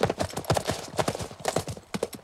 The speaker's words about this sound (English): They ride off in the opposite direction.